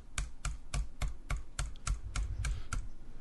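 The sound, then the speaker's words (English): Quick, evenly spaced clicks on a computer as a randomize button is pressed over and over, each one crisp and moderately loud in a steady rhythm, with no talk. “I had to click the randomize button a few times.”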